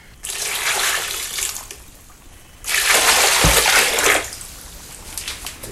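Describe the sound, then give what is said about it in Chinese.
Water poured onto a freshly planted tree sapling, heard as two loud rushing, splashing bursts separated by a quiet pause, the second burst slightly longer than the first. “树苗要栽植，采实了。浇水浇水。”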